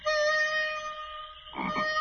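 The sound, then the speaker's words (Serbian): A frog croaking at the edge of shallow water: a sustained, buzzy harmonic tone held for over a second, then a short rough croak burst near the end, fairly soft overall. “Da zagazimo ovde. Nije mnogo duboko. Da nam ova žaba ne pojede štap. Vidi koliko je zinula.”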